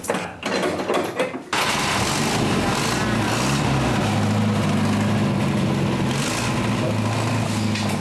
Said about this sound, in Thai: พร้อมกับสตาร์ทเครื่องโชว์แทบทุกคัน